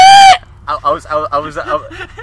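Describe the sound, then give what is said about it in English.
A voice imitates the screech of a creature caught in trap netting and flung into the air: one short, shrill, strained screech, followed by a person talking. “the netting came up around his feet, and he was flung into the air, and he started screeching”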